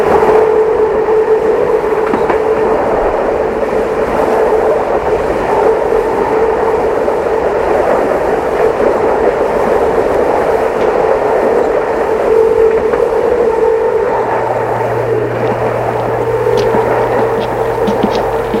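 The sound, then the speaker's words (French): Train travelling to Lyon: a steady, unbroken rumbling hum throughout, with a low droning tone joining in near the end. “Nicolas, surpris, prend le train tout de suite pour Lyon.”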